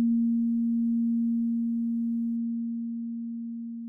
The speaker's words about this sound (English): So here's the second partial, which is double that frequency. So 233 hertz and half the volume, exactly half as loud.